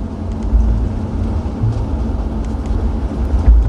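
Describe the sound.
A car driving along, with a steady low rumble of engine and road noise that surges slightly at moments and carries on with no talk over it.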